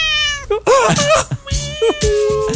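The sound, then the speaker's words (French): A cat meows loudly, giving a few drawn-out, wavering meows in close succession with only short gaps between them. “J'aime le son du chat. Il est tellement sympathique.”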